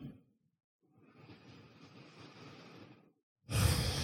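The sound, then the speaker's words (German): Deep, slow breathing into the belly: a brief soft breath, then a long, even airy breath lasting a couple of seconds, a short pause, and a louder breath beginning at the end. “Atme jetzt etwas bewusster in den Bauch.”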